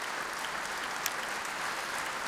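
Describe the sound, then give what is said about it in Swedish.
Applause for the Swedish Radio Symphony Orchestra at a concert in Berwaldhallen, under a British conductor: dense, steady clapping from the audience that holds an even level throughout, with no voices rising above it. “Och här i Berwaldhallen applåderas nu Sveriges Radio Symfoniorkester kväll under ledning av den brittiske dirigenten Nicholas Cullen.”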